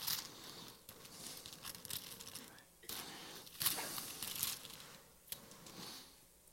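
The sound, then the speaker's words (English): Bible pages turning toward Galatians: several soft papery swishes and crinkles, quiet, with brief pauses between flips. “Galatians 5:13 says this. You can turn there. You can write it down. I'm going to turn there.”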